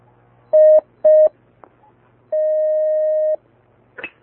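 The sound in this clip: Telephone line tones as a caller is connected to a call-in line: two short beeps, then one long steady beep over a low background hum, ending with a brief faint noise.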